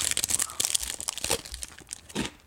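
Crinkling plastic from an individually wrapped snack's packaging being opened, faint, irregular crackles and rustles coming in quick, uneven bursts.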